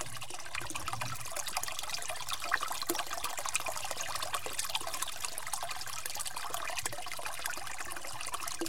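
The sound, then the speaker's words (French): Water trickles at a natural spring, a soft, continuous bubbling and dribbling that stays faint and even throughout, with no voices. “Le petit bruit de l'eau est agréable.”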